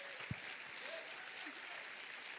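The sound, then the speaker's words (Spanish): Applause rises from a church audience honoring its Hispanic members, a steady, dense wash of clapping that stays quiet and even throughout, with one sharper thump near the start. “Y vamos a darle un aplauso give them a round al of applause Señor por ellos.”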